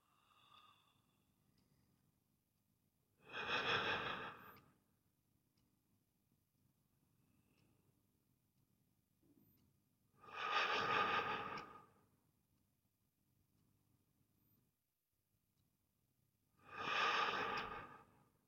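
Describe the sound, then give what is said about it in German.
Deep breaths taken during a guided breathing exercise: three long, slow inhale-exhale swells, spaced about seven seconds apart, each full and breathy against near silence. “5 tiefe Atemzüge.”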